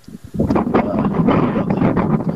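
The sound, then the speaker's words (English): Wind buffets a microphone outdoors, a steady, loud low rumble and roar that begins after a brief quieter moment and continues without a break to the end. “What are you out in the wind?”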